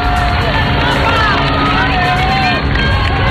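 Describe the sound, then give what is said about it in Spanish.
Loud, steady roar of a dense street crowd in Madrid as the Pope passes in the popemobile, a continuous mass of voices and babble with scattered shouts. “esto que están escuchando ahora mismo es señal en directo. En este momento León 14 está dando un paseo por las calles de Madrid en Papamóvil.”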